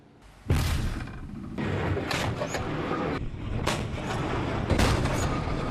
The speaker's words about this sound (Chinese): 在以往的主炮射击训练中，要求是直接击中目标